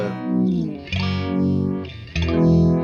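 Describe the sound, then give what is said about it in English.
Guitar chords run through a pedal with a mild phaser effect, three sustained strums whose tone is swept by slow, regular whooshing notches moving up and down. “Sounds very phasery, but real mild.”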